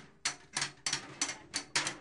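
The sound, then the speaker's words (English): Heavy metal bars bash dents out of one-gallon metal cooking-oil cans in a muddy alleyway. Six sharp, bright clanging strikes land in an uneven rhythm, fairly faint, each ringing briefly. “two men in shirt and lungi are using heavy metal bars to bash the hell and the dents out of 1 gallon metal cans that were once full of cooking oil.”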